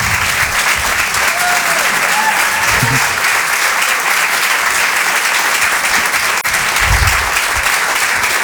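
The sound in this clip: Audience applause for a comedian taking the stage at a stand-up show: a thick, even roar of clapping that holds at a steady level for about eight seconds.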